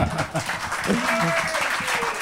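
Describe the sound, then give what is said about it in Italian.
Applause called for during a relaxed conversation with a musician: a dense, continuous patter of clapping with people talking over it. “detto da Eugenio Finardi, un applauso, dai.”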